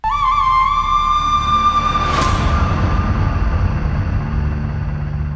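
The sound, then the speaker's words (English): A short show-closing sound sting: a bright sustained tone rich in overtones opens it, a whooshing sweep cuts through around the middle, and a low rumbling texture carries on to the end. “So let us end this episode. Bring me the bumper.”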